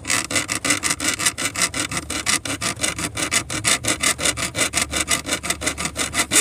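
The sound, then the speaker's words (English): Metal saw blade cutting into a piece of aluminum: many rapid, evenly spaced rasping strokes in a steady back-and-forth rhythm, bright and gritty, with no voices. “The sound of a metal saw blade cut into a piece of aluminum.”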